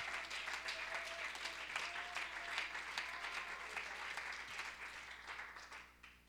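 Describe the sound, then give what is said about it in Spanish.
Applause from a church audience, a sustained dense wash of many hands clapping at steady loudness throughout, thinning slightly at the very end. “Dele un fuerte aplauso al Señor. Give him a hand praise right now.”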